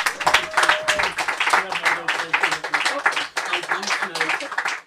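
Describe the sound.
Audience applause welcomes a performer at a Bloomsday event in Jameson Canio's Books, a dense, steady wash of clapping that holds for several seconds without a break.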